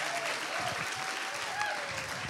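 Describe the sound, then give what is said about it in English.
An audience in church applauds to welcome a pastor, a steady, dense wash of clapping that lasts throughout. “And so would you please put your hands together and welcome from Seattle, Pastor Elijah Waters.”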